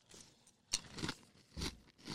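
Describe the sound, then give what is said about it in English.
Crunchy bites into honeycrisp apple pie granola, a few quiet crisp crunches spaced across the moment, with no talking. “Honeycrisp apple pie from Safe and Fair granola. Ready? 1, 2, 3.”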